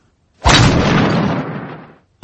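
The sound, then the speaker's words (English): A loud crashing crack as a nail is knocked into a wall and the wall cracks: one broad, heavy burst that sustains and then fades over about a second and a half. “Daddy Pig is going to knock the nail into the wall”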